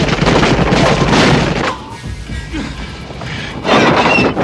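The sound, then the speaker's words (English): Gunshots shattering a spade handle pushed through a door's handles. Loud crashing blasts fill the opening, then a quieter stretch, then another loud burst near the end. “At the Ryans, bullets shatter the spade handle.”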